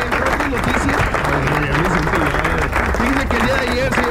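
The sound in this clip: Applause on a Spanish-language radio show, with steady clapping continuing beneath people talking throughout.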